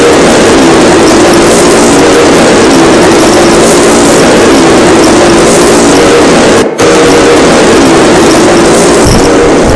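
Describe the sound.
Racing car engines roar at full power during a race, a loud, dense and continuous mechanical howl. It holds steady throughout, broken only by a momentary dropout partway through.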